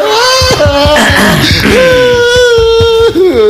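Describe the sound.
A person crying loudly, with long sustained wailing tones broken by sobbing catches and dips in pitch, the voice strained and uneven throughout.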